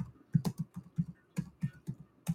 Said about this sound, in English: is typing it in right now